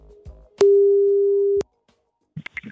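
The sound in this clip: Telephone ringback tone while calling a beach club owner: one steady, mid-pitched electronic beep lasting about a second, set in near silence, with a few short faint sounds after it.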